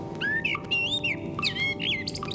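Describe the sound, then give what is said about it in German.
Common blackbird song played from a record: several clear, fluting whistled phrases in quick succession, rising and falling in pitch, over a steady low hum. “Das war die Schwarzdrossel, die Amsel.”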